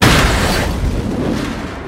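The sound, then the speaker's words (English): An explosion blows open the back doors of a 1960s Ford Transit van during a robbery. A single loud boom hits at the start, then decays into a long, broad rumbling roar. “The back doors of the van are blown open.”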